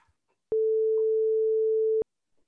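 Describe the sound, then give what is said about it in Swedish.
A telephone ringing tone sounds while a call is placed: one steady, pure, mid-pitched tone lasting about a second and a half, alone against near silence. “Då ska vi se, vem ska jag testa ringa till nu då?”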